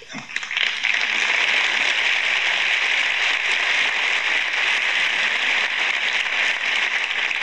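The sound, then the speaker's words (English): Thin applause from a small audience at a Sunday school talk on raising children, a steady, even patter of clapping that carries on without a break for about seven seconds. “thank you for that outpouring of affection. That was the weakest applause I think I ever heard.”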